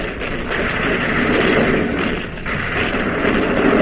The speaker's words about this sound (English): Open shutters. Commence firing. Commence.